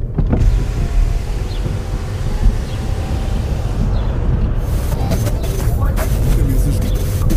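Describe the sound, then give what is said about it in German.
Steady car rumble and road noise run throughout a drive through the countryside, a dense unbroken roar with a few faint higher ticks near the end. “Also, einsteigen, anschnallen. Wir fahren ein Stück übers Land.”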